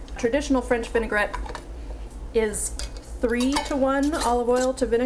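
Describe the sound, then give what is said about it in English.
A mustard-coated metal spoon clatters into a kitchen sink with brief clinks beneath a person talking. “Sorry, licking the mustard off the spoon. Putting that in the sink.”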